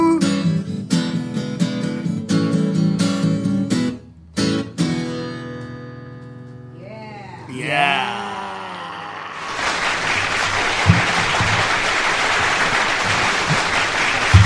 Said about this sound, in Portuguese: Gente, uma plateia aqui, nos estúdios da Dinâmica FM aplaudindo.